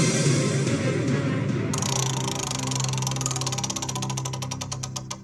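A game show prize wheel spins after a brief wash of noise. Its pointer makes rapid, even clicks that gradually slow and space out toward the end, with a low steady hum underneath.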